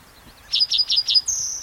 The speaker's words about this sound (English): 43, same song as a neighboring bird.